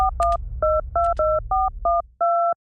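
A telephone dials a call as a quick run of clear two-tone keypad beeps in an uneven rhythm, with the last tone held longest, over a low hum that fades out.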